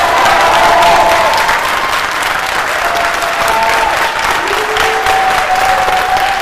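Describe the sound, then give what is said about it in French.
An IRAP team applauds and cheers as the rover touches down on Mars, dense, loud clapping held steady throughout, with a few sustained tonal cheers over the crowd. “Tout se passe à merveille quand à 21h45, le robot touche le sol martien. Les équipes de l'IRAP laissent éclater leur joie.”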